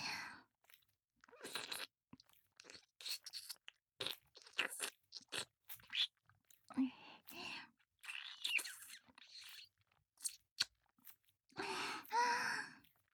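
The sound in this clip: Quiet, wet ASMR mouth sounds of nibbling and licking an ear: many short, soft crunchy and smacking bursts separated by brief pauses, close and intimate in level.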